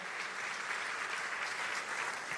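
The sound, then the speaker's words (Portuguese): A church audience applauds in a steady, even stream of clapping that stays at a constant, fairly soft level throughout. “E eu queria agradecer a Deus, pedindo a vocês, aplaudir o Senhor pela vida dos nossos pastores.”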